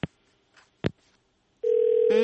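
A telephone call comes through on a call-in line: a few short clicks, then a loud, steady electronic tone that stays level to the end, joined near the close by a second, richer tone.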